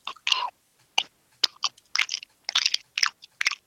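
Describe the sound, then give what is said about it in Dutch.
Chewing on a Carolina Reaper jellybean: many short, crisp crunching bites in an irregular rhythm, separated by brief silences and growing more frequent toward the end. “Eh, oké, de, de, Carolina Reaper dan, hè? De Carolina Reaper Jellybean. Here we fucking go.”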